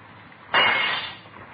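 A glass window being broken: one sudden loud shattering crash that bursts out and fades over under a second into quiet.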